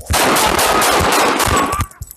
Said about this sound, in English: Control, Sam 1344, shot fired.